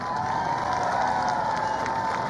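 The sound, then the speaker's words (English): A large crowd at a political rally cheering and clapping, a continuous roar of voices and hands that holds at a loud, steady level for the whole stretch. “Just clap if you like it, the best of the three.”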